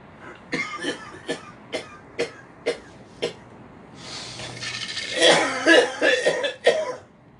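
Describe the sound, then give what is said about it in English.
Throat clearing in a string of about seven short, sharp rasping bursts at a steady pace, followed by a longer, louder stretch of rough hacking and coughing, with no talk. “Let me clear my throat.”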